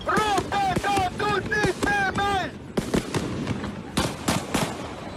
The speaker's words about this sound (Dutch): Dat is een vuurwapen! Daar is geschoten!